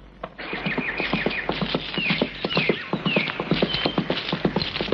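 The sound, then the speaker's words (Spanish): A horse's hooves clip-clop along a tree-lined country path as a rider goes by, many sharp hollow beats in a steady walking rhythm that stays fairly even in loudness from start to finish. “Por un camino entre frondosos árboles, don Álvaro cabalga en dirección a la casa de campo de los regentes.”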